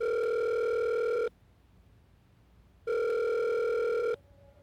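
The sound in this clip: A phone call ringing out on speakerphone: two long, steady ringback tones, each over a second, separated by a quiet pause, with no voices.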